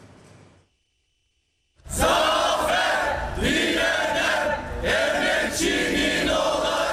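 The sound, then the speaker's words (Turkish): Crowd cheering and shouting in celebration outside a private Italian high school in Istanbul as teachers end a 123-day strike. A brief hush comes first, then loud massed cheers burst in and keep going to the end. “Dört aylık grev bitti, okul önünde kutlama yapıldı.”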